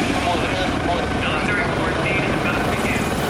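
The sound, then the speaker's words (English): A helicopter landing on a jetty, its rotor and engine making a loud, dense, unbroken roar that holds steady throughout. “A soldier escorts Robert and Marley onto the jetty where a chopper lands.”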